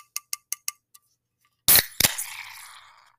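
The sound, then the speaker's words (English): A can of Guinness stout is opened and poured into a pint glass, the nitrogen releasing with a sudden loud hiss and a second burst, then fizzing that fades away. A few light, quick clicks come first. “You might have heard the little extra sound of nitrogen being released there. That's because I'm pouring myself a little Guinness here.”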